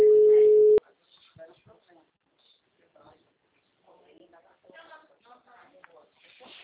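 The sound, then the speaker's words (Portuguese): A loud, steady phone line tone after a dropped call, held for almost a second and cut off abruptly, followed by quiet talking. “A ligação caiu, eu te mandei mensagem pelo WhatsApp que a ligação acabou caindo.”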